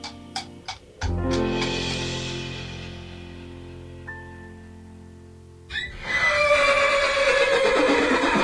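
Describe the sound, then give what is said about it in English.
A horse neighs as a sound effect: one long, loud whinny with a falling pitch, followed by a rougher, noisier burst near the end. “And from Northern Silicon Valley, we'll ride away on my trusty steed”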